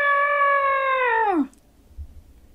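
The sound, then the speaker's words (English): A voice imitating an elephant trumpeting: one long, loud, sustained 'aah' held steady for over a second, then swooping down in pitch and cutting off into quiet. “Shall we be an elephant again? Can you get your trunk out in front of you and go, "Ah! Ah!"”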